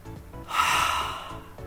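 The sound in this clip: A big exhale of relief from a driver who has finished a careful reversing U-turn on a slope. It is a single long, breathy, noisy rush of air that swells and then tapers off.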